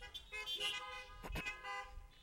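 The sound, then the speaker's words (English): Car horns honking together in answer to a church service, overlapping steady horn tones that sound through the whole clip with a stronger burst near the middle. “If you understand that, beep your horn.”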